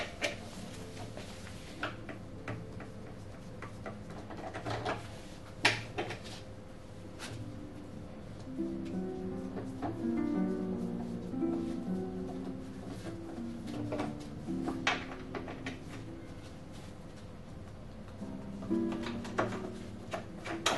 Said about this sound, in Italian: Prima di tutto, con la chiave da cordare svitiamo i quattro perni fissaggio base.